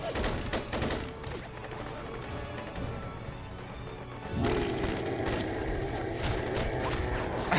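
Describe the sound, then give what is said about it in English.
Sustained, dense rattle of rapid gunfire from a special tactics and rescue squad shooting in a video game, loud and unbroken throughout, growing heavier partway through. “they're special tactics, and then they all just stand there shooting the guy”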